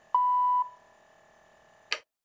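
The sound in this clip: A signal tone for a pronunciation exercise: one steady, mid-pitched electronic beep lasting about half a second, then quiet, then a single short click.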